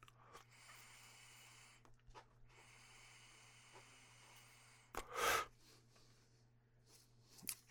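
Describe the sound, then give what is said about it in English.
Vapour drawn from a Crafty Plus portable herb vaporizer: two long, soft, airy hissing inhales, then a louder, sharp breathy burst and a brief faint breath near the end. “why don't we take the first hit off the Crafty Plus this time, just to be a little bit different”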